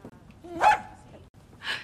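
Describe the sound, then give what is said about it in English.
A puppy barks in two short, sharp yips separated by a pause, the first louder and slightly whiny, over a low, steady background hum. “Oh, who's that? That's my current house guest. Don't worry, little buddy. She's a friend. This puppy doesn't have a name yet.”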